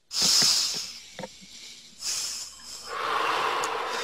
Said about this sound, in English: And take a deep breath.